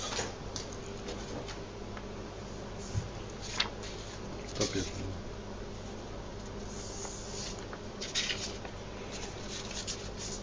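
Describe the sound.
Pens scratch across paper ballot cards during a secret vote at an annual general meeting. The faint, steady writing sits under a low bed of room noise, with a few soft clicks and a quiet murmur of voices.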